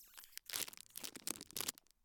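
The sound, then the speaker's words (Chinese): Cake packaging being torn open, a few soft bursts of crinkly tearing and crunching, quiet and dry, trailing off at the end. “你拆下蛋糕包装，然后喂我。”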